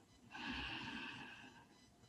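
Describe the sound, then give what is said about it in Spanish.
A deep inhale taken during a guided breathing exercise: one long, steady, breathy intake of air lasting nearly two seconds, with a faint voiced edge and no talking. “Inhalamos profundo. Inhalamos profundo.”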